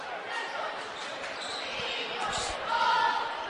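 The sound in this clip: A basketball bounces on the court during a girls' high school game between the Lady Wildcats and the Pioneerettes, a few dull low thuds under steady background noise and indistinct voices.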